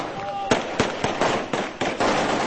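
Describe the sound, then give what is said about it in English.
Celebratory gunfire from rebels in Libya firing into the air: a rapid, irregular run of many sharp, loud bangs over a dense, noisy background. “In Libya, rebels celebrating firing into the air after seizing control of Colonel Muammar Gaddafi's”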